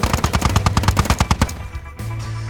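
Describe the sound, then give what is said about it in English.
Chain gun firing a dense, rapid burst of many sharp, evenly spaced shots at a loud level. The burst stops partway through, and a lower, steadier rumble follows. “Our line won't hold. The chain gun is tearing through us.”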